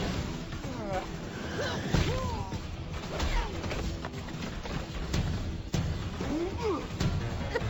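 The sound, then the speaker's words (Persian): Blows landing in a fight scene: many loud whacks and thuds with swishing whooshes, over dense continuous clatter and excited voices. “چه ضربه خوبی بزن بزن.”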